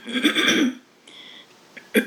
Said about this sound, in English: having some trouble getting my voice cleared, and I ask you to bear with me and excuse me.